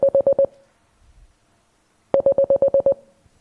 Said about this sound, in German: 8 Beeps sind es. 8 kurze Signale.